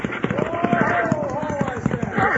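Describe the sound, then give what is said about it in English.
Horses running hard as riders try to pull them up during a chase, with a steady rhythm of thudding hoofbeats continuing under a voice and a sustained tonal line. “pull them horses down. Wait up.”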